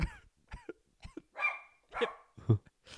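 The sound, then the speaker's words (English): A dog barking several times in short, sharp bursts spaced at an uneven rhythm, loud and clear with no talk over it. “sorry about the dog barking”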